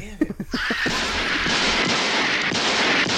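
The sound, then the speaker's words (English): Gunshots in a trailer for a 1981 horror film: a few sharp bangs in rapid succession, followed by a sustained, loud roaring wash of noise. “God damn it. I shot him 6 times. I shot him in the heart.”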